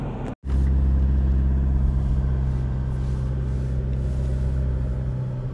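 Steady in-car road noise from a car driving along the road: a continuous low engine and tyre drone with a humming undertone, holding level throughout after a brief cutout at the very start.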